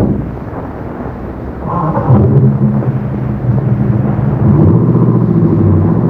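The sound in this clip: Low engine rumble from a car pulling away, a deep, steady drone that grows louder and fuller partway through and then holds at a heavy, even level.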